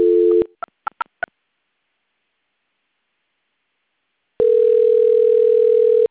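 Telephone line tones during a call transfer: a short steady tone, four quick keypad beeps, a long silence, then a continuous steady tone that holds to the end.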